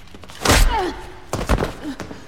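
Heavy thunk of a pistol-whip blow striking a woman, followed by a few duller thumps as she falls, all short and fairly loud against a quiet background.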